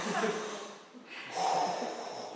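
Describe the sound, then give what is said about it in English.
Two deep breaths drawn in sequence, each a loud, airy rush of breath with a short pause between them. “Deep breaths”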